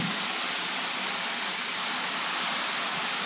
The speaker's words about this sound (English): spraying water into the bath, and here's some bubble bath. Squeeze that in, and now it's starting to make some bubbles.